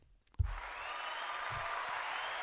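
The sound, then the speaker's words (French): Audience applause greets a guest being welcomed onto a French comedy show. A sharp thump opens a steady, even wash of clapping that holds at the same level to the end. “Le public est en folie.”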